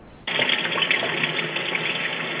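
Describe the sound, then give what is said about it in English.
Tap water runs as someone washes their hands at a sink. It starts abruptly and continues as a steady, loud rushing hiss heard over a telephone line. “we got some interference on the line here. Is somebody wash your hands or something?”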